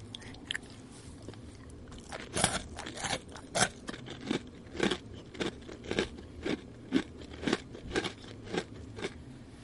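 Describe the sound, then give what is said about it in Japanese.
Someone bites and chews a large crunchy snack, making many sharp crisp crunches in an irregular rhythm. The crunches are fairly loud against a quiet background, and nobody talks. “ASMR あの立花の お前の 立花の大きい方を僕が食べる音を聞かせてあげます。”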